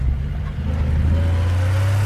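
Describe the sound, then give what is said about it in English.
A diesel truck drives through city streets with a steady, loud low engine drone and a faint higher hum emerging toward the end. “I drive to the laundry. It's 5 minutes before it closes. I'm running out of time. And shirts. I take command of the streets. In my truck, Shell V-Power Nitro Plus Diesel.”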